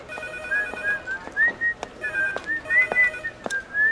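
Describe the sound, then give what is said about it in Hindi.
A woman whistles a wavering, mid-pitched tune over a steady run of sharp, regularly spaced taps. No one talks. “आप यहाँ सीटी बजा रही हैं”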